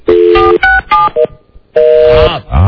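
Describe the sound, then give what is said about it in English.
A telephone being dialed with touch-tone keys: several loud, short beeps in quick succession, a brief pause, then one longer tone and a final short beep, with no other sound. “who is madly dialing right now”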